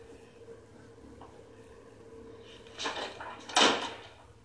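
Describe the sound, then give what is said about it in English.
Doors closing inside a house to darken the rooms: two fairly sharp thuds close together near the end, the second louder, after a stretch of faint low background noise. “Closing more doors to make it even darker in the crib.”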